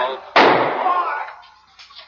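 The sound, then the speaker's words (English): A single sharp gunshot cracks out in an archival live television broadcast of a shooting in the basement of Dallas Police Headquarters. The loud burst decays slowly, with voices in the background. “He's been shot. He's been shot. Lee Oswald has been shot. There's the man with a gun.”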